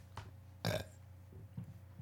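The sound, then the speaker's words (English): One short, faint human burp, a brief guttural belch standing alone over a quiet low hum. “I burped.”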